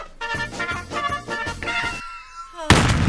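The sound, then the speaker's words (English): A single sharp gunshot sound effect bursts in loudly after a few seconds of rhythmic music, cutting the music off abruptly. “Oh, sorry, I left that cue in where we shot ourselves because we couldn't stand listening to it.”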